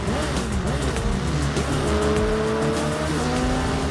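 Race cars roar through a video game racing trailer, with loud continuous engine noise and revving whose pitch shifts up and down throughout.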